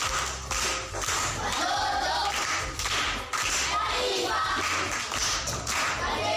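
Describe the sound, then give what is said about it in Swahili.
A group applauds a man at a school gathering, dense steady clapping lasting several seconds, with brief dips in loudness near the start and middle before it continues. “Makofi kwa mjomba.”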